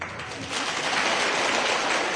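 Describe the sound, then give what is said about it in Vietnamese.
Buddhist lay followers at a dharma talk break into applause after a question to the teacher, a soft, even hiss of many hands clapping that swells slightly after a moment and then holds steady. “Các chàng mà vỗ tay của các Phật tử có mặt đó cho thấy đó là cái người đặt câu hỏi đã có trình độ Phật học tốt.”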